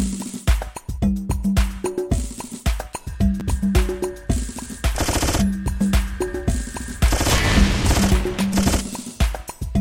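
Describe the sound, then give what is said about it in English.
Machine-gun fire from the video game Judgment Day rattles in many rapid bursts with brief gaps between them, building to long stretches of dense, continuous shooting with a faint sustained tone underneath. “Machine gun. Rockets.”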